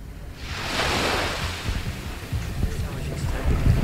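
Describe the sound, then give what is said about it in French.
Sea waves breaking on the beach at Cannes, recorded by hand: a broad, fairly loud rushing wash that swells near the first second and rolls on with a low, uneven rumble underneath. “c'était d'entendre la mer, qui est quand même une des belles choses qui sont à Cannes, le bord de mer et à Amarcord. Et voilà ce que j'ai recordé, si j'ose dire, mais pas très bien”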